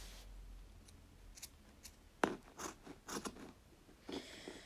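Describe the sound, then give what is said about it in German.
Scissors cut through frayed fabric for a handmade bridle. A few quiet, crisp snips and slicing scrapes come at irregular intervals over a faint background hiss. “Also ich hasse auch so Stoff schneiden zu müssen, der so franselig ist. Das ist so extrem schwer.”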